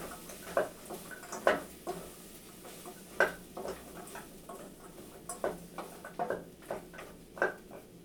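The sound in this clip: A utensil stirs food in a cooking pot, making many light, irregular clinks and scrapes against the pot at an uneven rhythm, fairly soft and with no talking.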